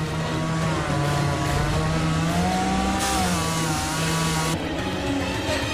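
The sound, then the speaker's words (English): A smoking chainsaw runs continuously in a dark forest. Its buzzing engine drone stays loud throughout, and the pitch wavers up and down as it revs. “Smoke pours out of his chainsaw.”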